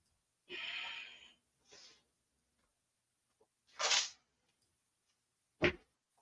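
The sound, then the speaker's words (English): Heavy breathing during an exercise workout: four separate huffs of breath, faint and breathy, spaced apart by near silence. “You can hear me, my breath changing there.”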